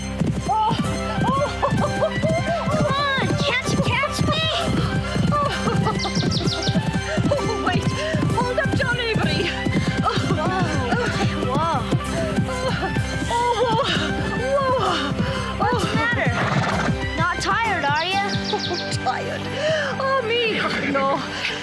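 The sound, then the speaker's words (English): Hooves of a horse being ridden clip-clop steadily through a long stretch, mixed with repeated whinnying neighs and a busy, continuous tonal layer. “We did lots of things together, and one of our favorites was horseback riding.”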